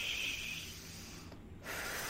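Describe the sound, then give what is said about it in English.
A deep meditative breath drawn in through the nose: a steady, airy hiss that runs for over a second, stops briefly, then resumes. “Let's take a deep meditative breath in with our nose.”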